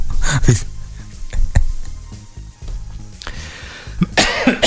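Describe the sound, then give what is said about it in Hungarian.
Coughing from someone with a cold during a live show: a few harsh, breathy bursts spread across the moment, some sharp and some rougher, with short pauses between them. “De én köhögök.”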